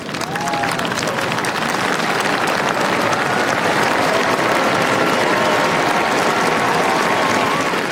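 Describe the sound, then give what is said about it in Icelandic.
A crowd cheers and applauds the royal family on the palace balcony in Oslo: dense, unbroken clapping and cheering that stays loud and even for the whole stretch. “síðdegis í dag kom konungsfjölskyldan á svalir hallarinnar og veifaði til mannfjöldans sem hylti hana ákaft.”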